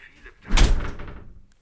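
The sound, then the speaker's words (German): A door swung shut with one dull, low thump and a short fading tail, fairly loud against a quiet background. “Kannst du die Tür bitte zumachen?”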